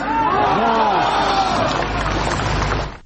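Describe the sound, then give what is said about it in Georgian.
A crowd at a rally shouts enthusiastically in reply to a question from Navalny. The mass of voices is loud and continuous, then cuts off abruptly at the end. “ნავალნის სამშეკითხვას, როგორც მოისმინეთ, ახტაცებული შეძახილები მოხვა.”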